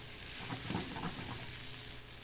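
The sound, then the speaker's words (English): Garlic sizzling in a pan as it is stirred, a continuous frying hiss with a few soft bumps from the stirring and no voices. “I don't wanna add the garlic too soon because I don't wanna burn it. And I just stir that around and let that the bouquet of that garlic smell kind of start to come out.”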